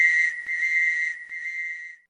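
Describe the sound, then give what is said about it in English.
A whistle blows one long, piercing, steady high tone for about two seconds, broken by two brief dips, then cuts off sharply. “Blow my whistle, baby. Blow my whistle, baby.”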